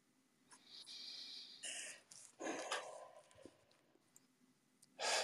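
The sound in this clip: A deep breath taken during a guided pause before reading a text line by line: a few breathy, hissing bursts with quiet gaps between them, ending in a louder, stronger exhale.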